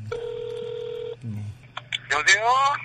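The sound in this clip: A telephone tone as a call is placed: a steady, even tone lasts about a second, then a short second tone follows before voices begin.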